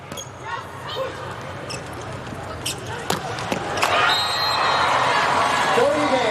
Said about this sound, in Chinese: 傅拱王先来发球。